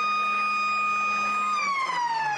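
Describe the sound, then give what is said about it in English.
Half-time siren at an Australian rules football match blares as a loud, sustained tone rich in harmonics. It holds steady at first, then slides downward in pitch toward the end. “As the siren sounds”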